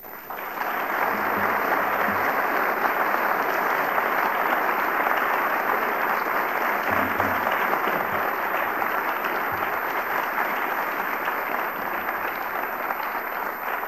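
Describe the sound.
Audience applause welcomes a lecturer at a Vancouver Institute lecture: dense, even clapping that rises quickly and stays steady and loud for about thirteen seconds.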